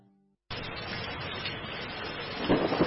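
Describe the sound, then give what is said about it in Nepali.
Heavy rain pours down in a dense, steady hiss after a brief quiet start, growing louder and rougher with a deeper rumble near the end. “पानी त धेरै ठुलो पर्यो।”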